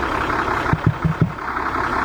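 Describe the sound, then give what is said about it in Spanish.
An engine idling smoothly and evenly, a steady broad hum with four soft low thumps in quick succession midway through, and no voices. “Un relojito. Ese motor te lleva a Ushuaia y de vuelta.”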